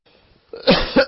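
A person coughs a few times in quick succession. The coughs are loud, rough bursts that start after a near-silent opening, with no speech in between.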